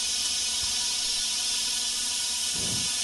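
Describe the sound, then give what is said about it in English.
High-pressure steam leaks steadily as a constant, loud, bright hiss, with a faint low knock near the end. “It's a steady stream of steam. Yeah, we can see. You can come at the motel. Make sure you have like gloves or stuff because this steam's real high pressure and it can cut you.”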